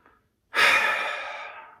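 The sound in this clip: A single long, slow exhale during a guided breathing exercise, a breathy rush of air that begins after a moment of near silence, starts strong and gradually tapers off.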